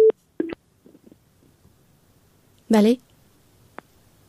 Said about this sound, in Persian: بله خب فکر کنم که تماسشان قطع شد